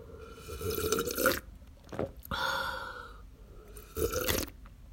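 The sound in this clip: Slurping sips of hot tea with milk come in several short, wet, breathy bursts separated by brief pauses, all fairly faint.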